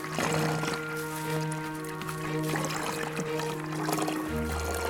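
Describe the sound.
Water trickles between the roots of a linden tree in a steady, continuous gurgle, with a faint humming drone underneath.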